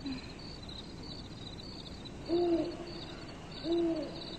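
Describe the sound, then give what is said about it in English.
Two low owl hoots, short and steady, about a second and a half apart, rise above a faint, continuous high-pitched chirring that runs through the whole clip. “That's an owl. You know how an owl goes? Owl goes, hoo, hoo, just like that.”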